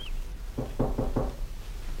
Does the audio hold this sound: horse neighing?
no